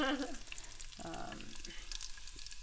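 Cumin seeds sizzle in hot ghee as they are swirled around a pan on an electric hob, a steady crackling hiss with fine pops that carries on alone throughout.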